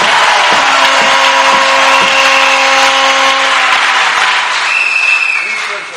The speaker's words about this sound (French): Acclamons-le encore très fort. Tumpikie tena mikono zaidi.